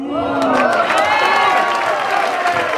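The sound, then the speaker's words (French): Loud, sustained cheering and shouting from a packed audience at a slam poetry event at the Cartonnerie in Reims, a dense wash of many voices that stays intense for the whole clip. “Un public chauffé à bloc à la cartonnerie de Reims qui était pleine à craquer.”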